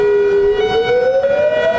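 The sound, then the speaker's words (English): A nuclear attack warning siren in Hawaii wails loudly with a steady tone that begins climbing in pitch partway through and keeps rising to the end. “It's the sound of peril in paradise. Today, for the first time since the Cold War era, a nuclear attack warning system is active in Hawaii.”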